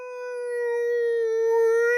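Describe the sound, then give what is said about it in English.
A humpback whale call rings out as a single sustained, tonal moan rich in harmonics, holding a steady pitch with a slight dip midway and swelling gradually louder over two seconds, heard alone. “Here we are talking about whales calling to each other across the sea. In today for Clack, a humpback whale.”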